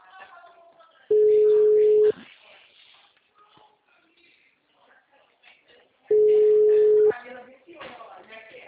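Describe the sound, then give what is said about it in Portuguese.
The ringing tone of an outgoing telephone call, heard as two steady, loud mid-pitched tones of about one second each, several seconds apart, with faint background voices and rustling between them. “Tô ligando pro cliente aqui.”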